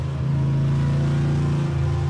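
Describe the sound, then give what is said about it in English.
A car's engine as it speeds down a street, a loud, continuous low rumbling drone with a slight waver and no voices. “Well, we're speeding down the street in the Larrymobile. I think we're going a little too fast.”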